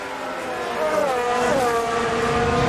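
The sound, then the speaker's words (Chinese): Formula 1 race car engines on track during a race, a loud continuous high-revving whine with shifting pitch that swells slightly midway. “看看这边有没有机会利用尾流，这边呢过掉皮亚斯里还是在主之路，这样的话呢就是两辆梅奔的赛车呢在第一和第二。”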